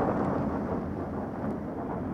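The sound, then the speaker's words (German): Thunderstorm sound effect in a radio drama, a heavy storm with Föhn wind over a lake, heard as a loud, steady rumbling roar with no distinct thunderclaps and no voices. “Ein schweres Unwetter ist im Anzug.”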